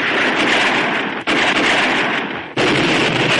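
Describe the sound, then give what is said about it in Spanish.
Hand grenades explode among gunfire in a Mexican Revolution battle from a 1954 Western, a dense, continuous roar of blasts and shots with two brief dips in the din. “Los mexicanos lanzan granadas de mano.”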